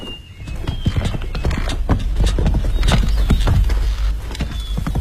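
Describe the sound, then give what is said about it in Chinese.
Horse hooves clip-clop steadily as a rider follows behind a sedan chair. Many loud hoof beats fall in an even rhythm over a low rumble. “索图骑马随着阿玛轿子后面”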